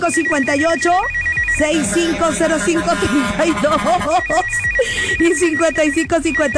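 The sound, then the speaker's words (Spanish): Telephone ringing tones, a steady high pulsing buzz at the start and again after about four seconds, heard beneath loud overlapping voices that continue throughout. “vámonos, vámonos a marcar”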